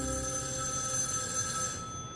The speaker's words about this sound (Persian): چرا تلفن رو برنمی‌داری؟